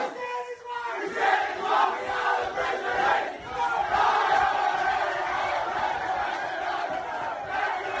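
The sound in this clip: Brisbane Heat cricket players, newly crowned Big Bash League champions, sing and chant loudly together in the dressing shed, a continuous ragged chorus of male voices that swells after a short quiet start and holds strong to the end.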